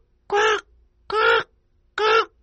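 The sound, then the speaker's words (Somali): A crow caws three times, each harsh, nasal call short and evenly spaced by quiet gaps, loud and alone. “fiiri tuku wuxuu dhawaaqaa”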